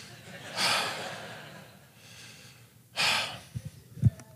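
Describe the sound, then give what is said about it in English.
Deep, heavy breaths: two loud, breathy intakes stand out clearly, with a fainter breath between them, followed by a few soft low thumps. “so I gotta take a breath”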